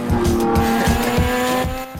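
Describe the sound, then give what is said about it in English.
A Mazda RX-7 roars as it accelerates hard on nitrous oxide boost to overtake a Skyline, a loud, steady high-revving engine drone with a rhythmic pulsing throughout and no voices. “Han raises his brows at Sean, who grins and flicks a switch next to a canister of nitrous oxide. The RX-7 shoots forwards like a rocket, overtaking the Skyline.”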